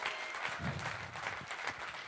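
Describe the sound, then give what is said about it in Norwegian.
Guests at a birthday party give a round of applause to a woman being introduced. The clapping is moderate and steady, a continuous patter from a small group. “Vi kan klappe litt for Vilde.”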